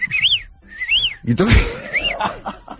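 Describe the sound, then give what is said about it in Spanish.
A person whistles to imitate a female bolet's mating call, giving three high arched notes that each rise and then fall. A short burst of noise comes between the second and third whistles. “¿Ese qué silbido? ¿Esto qué sonido es? Es el silbido que produce el bolet femella.”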